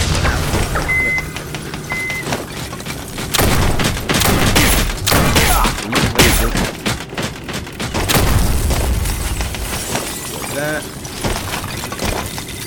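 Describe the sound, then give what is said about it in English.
Grenade and missile explosions in a shooter video game: loud booms, crashes and rattling bursts pile up almost without a break, forming a dense, continuous din. “That is throwing grenades. And there's another caretaker that just dropped. And there's a missile coming straight for me.”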